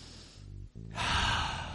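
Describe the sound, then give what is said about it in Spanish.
A deep breath, soft and airy, swelling into a long breathy rush that fills the second half, with no talk over it. “Respirar hondo.”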